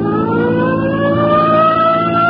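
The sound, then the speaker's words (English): A police car siren wails loudly and steadily on a road among interstate trucks and trailers. Its tone climbs slowly through the whole clip over a low, rumbling drone. “Come on, hit your siren.”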